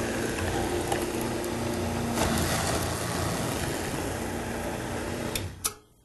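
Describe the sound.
A juicer machine runs with a steady, even mechanical whir at low volume, then cuts off abruptly just before the end.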